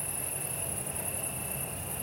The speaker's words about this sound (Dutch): Ja, want dat is het bijzondere van krekels, hè? Dus krekels maken geluiden die je mee kan fluiten, zeg ik altijd. Dus die hebben ook echt een toonhoogte.